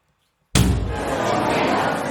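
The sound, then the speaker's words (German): Door suddenly banging open with a single sharp, loud slam out of silence. A dense, steady wash of noise follows and holds to the end. “Da schlägt auf einmal die Tür auf.”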